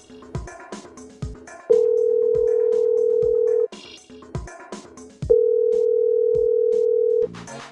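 A telephone rings on the line as two long, steady single-pitch tones, each about two seconds, with short bursts of other sound between them.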